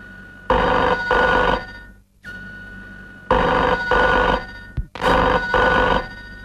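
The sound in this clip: A telephone rings in three bursts, each a quick double ring, with short pauses between them and no voices.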